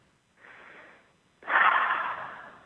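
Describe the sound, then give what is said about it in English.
A deep breath taken slowly: a soft, airy breath sound is followed after a short pause by a longer, louder one that gradually fades, with no talking. “Just please take a breath and breathe.”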